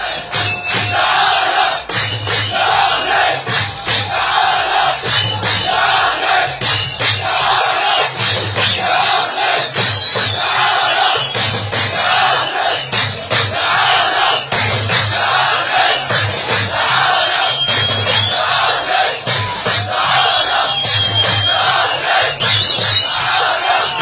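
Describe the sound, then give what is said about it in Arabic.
Beit Hanoun football fans cheer and chant after a win, a loud massed crowd roaring in a steady rhythmic pulse of shouted chants that keeps going throughout. “ذلك لم يمنع من خروج فريقه خاسرا ويحصل الحوانين على أول 3 نقاط وسط فرحة كبرى لجمهور بيت حنون اللي شجع وآزر الحواني. نستمع لآهات الجماهير.”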